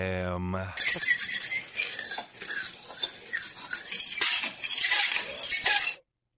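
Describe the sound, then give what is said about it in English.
A knife scraped against crockery gives a harsh, high, grating screech that runs continuously for about five seconds and then stops abruptly. “Is that somebody sharpening a knife? It's nearly like that, yeah. Somebody does that in work. What is that? So that's somebody cleaning a knife against crockery”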